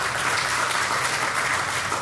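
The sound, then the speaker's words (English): A church audience bursts into applause during a sermon, a brief burst of steady, even clapping that stays at one level throughout, with no speech over it. “And by the way, no, you can clap for that.”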